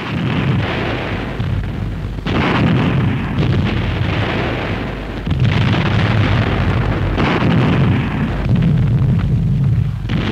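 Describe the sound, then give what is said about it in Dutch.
Heavy artillery barrage from self-propelled guns of the Canadian Army opening an offensive on the Hochwald Forest: dense, continuous rumbling booms with several loud surges, loud throughout and with no voices. “Self-propelled guns of the 1st Canadian Army open the offensive for the Hochwald Forest.”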